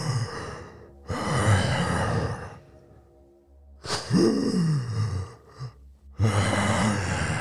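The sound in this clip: Heavy breathing from an insect-like armored creature with a long forked tongue: several loud, raspy breaths and sighs, some carrying a voiced groaning tone, with quiet gaps between them.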